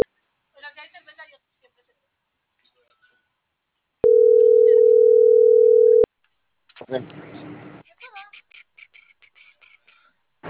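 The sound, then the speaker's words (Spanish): A steady mid-pitched telephone line tone, heard while a call goes unanswered, holds unbroken for about two seconds. Brief talk and scattered chirpy sounds come before and after it. “le estaba marcando, pero no contestan”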